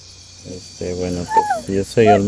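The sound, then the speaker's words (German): Night insects of Amazon lowland rainforest in eastern Ecuador keep up a steady, thin, high buzz. Louder bursts of low calls rise over it in short, uneven pulses. “sind die Geräusche im Yasuni-Nationalpark noch beeindruckender als am Tag.”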